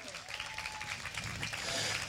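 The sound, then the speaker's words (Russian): An audience applauds after a pop-jazz orchestra opens a concert, dense steady clapping that grows slightly louder through a brief burst. “Ваши аплодисменты!”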